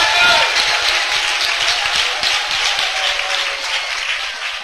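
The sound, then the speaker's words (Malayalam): A church audience clapping in praise of God, a dense, steady patter of many hands with voices mixed in, slowly easing in level toward the end. “കൈയടിച്ചു ദൈവത്തിന് സ്തോത്രം ചെയ്യാം.”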